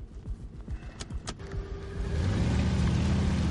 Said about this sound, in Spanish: Navas asiente y acelera.